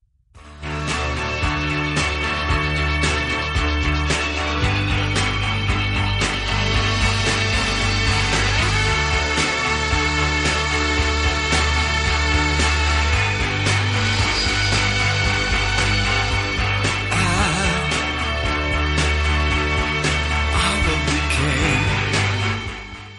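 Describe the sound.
Classic rock song by a famous singer plays loudly and steadily from start to finish, a full, dense band arrangement with a driving low end and no talk over it.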